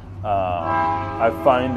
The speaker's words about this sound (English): sorry about the train there